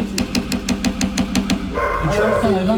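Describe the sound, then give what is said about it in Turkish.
Dogs kept by neighbours barking in a residential neighbourhood: a rapid, evenly spaced run of sharp barks, followed by a person talking. “Mahalleli isyan ediyor çünkü komşularının beslediği köpeklerin sesinden uyku haram oldu.”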